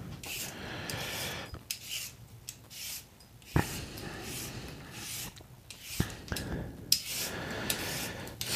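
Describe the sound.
A vegetable peeler scrapes and trims a vegetable with a blemish: many rough, rasping strokes in an uneven rhythm, with a few sharp clicks between them.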